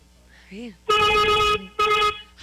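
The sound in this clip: A car horn sounds two long, steady, loud blasts, each lasting over half a second, separated by a short gap and preceded by a brief voice.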